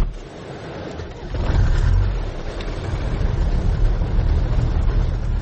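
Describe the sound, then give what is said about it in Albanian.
An old red car drives by with a steady low engine rumble that grows louder about a second and a half in and then holds at a strong, even drone. “Me veturën e ti të vjetër e të kuqe, Muhammed Sakiqi e bën shpesh rrugën drejt një prone të tij.”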